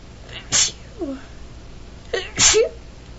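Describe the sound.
Two sharp, loud human sneezes about two seconds apart, each a sudden breathy burst trailed by a brief, softer voiced sound.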